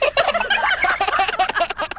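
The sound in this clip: A chicken calls with loud, rapid, warbling gobble-like cries. The bursts run almost continuously for about two seconds, alone, with no talk.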